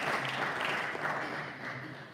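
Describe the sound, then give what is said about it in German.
Applause from an audience during a sermon, honoring two people. It is a steady, dense wash of clapping, fairly faint and tapering slightly near the end. “Gebt den beiden mal einen Applaus.”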